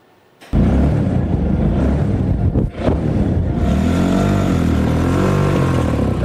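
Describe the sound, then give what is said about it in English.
The engine of a home-built five-gear car runs loud and steady, dips briefly mid-clip, then rumbles on with revs that waver toward the end. “This car has 5 gears, just like the cars that you are used to.”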